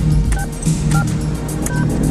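Three brief two-tone beeps like keypad dialing from a time-traveling 1980s phone booth, spaced evenly over a steady rumbling hiss.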